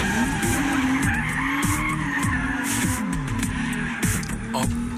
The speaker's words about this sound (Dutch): Het is gelukt om een Toyota Supra volledig zelf te laten driften.